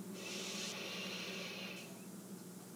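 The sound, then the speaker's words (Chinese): A slow breath drawn in through the nose during a calming breathing exercise, heard as a soft, steady, airy hiss that fades toward the end. “重新吸气，用鼻子吸气，”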